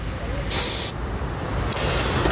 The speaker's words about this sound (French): On peut vérifier peut-être côté conducteur la pression des pneus d'usage.